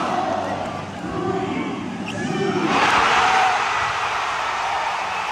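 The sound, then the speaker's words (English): A basketball crowd cheers at an Illawarra Hawks game after a fan sinks a shot from the halfway line. A murmuring crowd swells midway into a loud, sustained roar. “This guy, a fan in the crowd, got the ball on halfway, throws it, makes the basket. Wins? A car. A car! What? As you can hear the crowd going off.”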